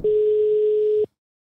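A telephone ringback tone sounds while a call is placed: one steady, mid-pitched tone lasting about a second, then silence.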